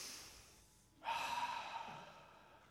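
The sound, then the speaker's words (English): A single deep breath taken during a church service: a soft, breathy rush of air that starts abruptly after a quiet moment and tapers off over about a second and a half. “Go ahead, take a deep breath.”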